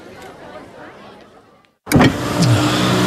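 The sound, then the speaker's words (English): A car accelerating while overtaking: a low, steady rumble, then a brief drop to near silence, followed by a sudden loud surge of engine noise with sweeping tones that holds to the end. “I was just overtaking someone, officer.”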